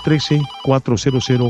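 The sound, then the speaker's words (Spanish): A telephone rings with an incoming call, playing a loud melodic ringtone of short bright tones in a repeating pattern, with brief gaps between the groups. “ya tengo una nueva comunicación, me dice la astróloga Sara, que tenemos ya esa llamada al pendiente. Vamos a agarrar esta llamada, es de aquí de Cincinnati”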